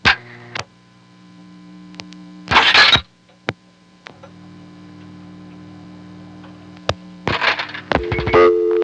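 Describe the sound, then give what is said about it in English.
Telephone line sounds on a crossbar exchange while an area code is dialed without the leading 1: a steady low tone broken by sharp clicks and short noisy bursts, ending in a changed tone. “Okay, I've dialed 2, now I'm going to dial 1-2. In other words, area code 212 without the 1 dialed first.”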